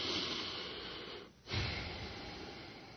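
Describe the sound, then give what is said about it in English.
A deep breath: a long, faint rush of airflow that breaks off briefly midway, then swells again in a slightly stronger second draw of air. No talking. “Okay, deep breath.”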